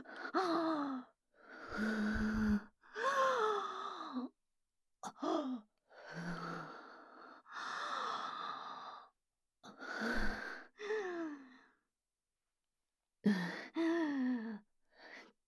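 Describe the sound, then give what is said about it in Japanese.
Deep breathing to calm down: many slow, heavy breaths in succession, several voiced like sighs or gasps, separated by short pauses of quiet. “一呼吸いいですか。深呼吸をして精神を静めれば。”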